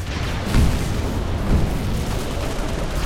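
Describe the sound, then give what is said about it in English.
Bazooka fire and explosions in a shooter video game set in a mall: two deep booms burst out of a continuous, loud rumbling roar. “Okay, seriously, this mall is ridiculous. There's a bazooka here, but I can't fathom why.”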